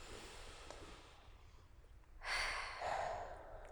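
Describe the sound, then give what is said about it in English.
A single deep breath drawn in during a group affirmation exercise: a breathy, airy rush that begins after a quiet stretch and swells in two surges over about a second and a half, with no talk. “Take a deep breath in.”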